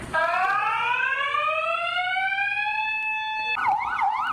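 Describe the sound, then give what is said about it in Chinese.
An electronic alarm in a post office during a robbery wails alone: a loud rising tone sweeps upward for about three seconds, then switches to a fast warbling pattern. “邮局行员第一时间冷静按下警铃，并通报警方。”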